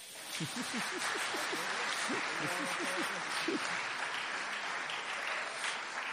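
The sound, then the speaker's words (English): An audience claps in church, a steady, dense patter of hands that holds at an even level for the whole stretch without a clear rise or fade. “And as Alistair gives them out, it's okay to clap in church.”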